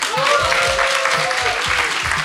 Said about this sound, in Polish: wielkie brawa, wielkie brawa